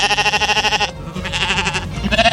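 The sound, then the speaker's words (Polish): Sheep bleating as they graze: a few wavering, nasal bleats in short bursts, fairly loud and alone, with brief gaps between calls. “Zielone kosiarki, czyli owce, tak naprawdę zajmują się tym, co lubią najbardziej, czyli jedzą trawę.”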